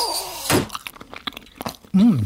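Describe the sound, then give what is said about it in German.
Crunchy chewing of Bienenstich cake topped with almonds, eaten in a dentist's practice. A quick series of crisp bites and munches is followed by a short voiced sound at the end. “Man muss sie entschlossen und bewusst essen. Dann entdeckt man die Mandeln auf der Oberfläche.”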